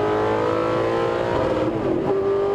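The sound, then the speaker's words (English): A 1966 GT40 Mark II Superformance race car drives a lap of Virginia International Raceway, its engine a loud, steady drone that dips briefly in pitch near the end before climbing again. “This is the 1966 GT40 Mark II Superformance.”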